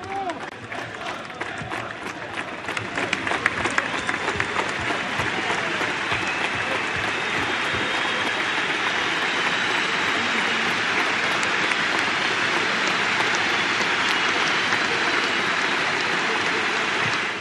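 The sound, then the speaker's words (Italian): A football crowd in Florence applauds Paolo Maldini's farewell, a dense, loud wash of clapping that swells over the first seconds and then holds steady and sustained throughout. “Anche Maldini, che è stato un monumento del calcio, è stato festeggiato e ha lasciato. Ascoltiamo come Firenze ha salutato Maldini.”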